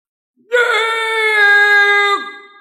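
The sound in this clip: A man's loud shout, one sustained cry lasting about one and a half seconds, holding a steady pitch before dropping away at the end, heard alone against silence.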